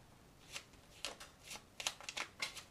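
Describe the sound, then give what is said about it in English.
Cards being shuffled, heard as a series of quick papery riffling bursts that come in uneven bunches, with more of them packed together toward the end. The sound is faint and there is no talk. “Wow, the cards are flying.”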